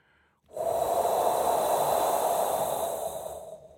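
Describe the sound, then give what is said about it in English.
Breath blown into cupped hands: one long, steady, airy rush of about three seconds that stays loud and even, then tapers off. “He cupped his fingers and hands close to his mouth and blew into his fingers.”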